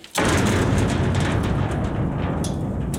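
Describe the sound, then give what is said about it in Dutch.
A heavy metal door of a marl quarry near Valkenburg bangs open: one sudden loud slam starts a dense, booming roar that stays loud and only eases slightly to the end. “Slot open en dan een hele zware metalen deur open.”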